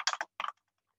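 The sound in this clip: A comment is typed on a computer keyboard: a few quick, crisp key clicks in two short bursts, then silence.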